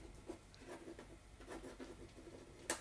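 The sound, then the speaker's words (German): Pen strokes as someone writes, faint scratchy rubbing in an uneven rhythm of short strokes, ending with one sharper tap, and no talking. “Ich glaub, du schreibst.”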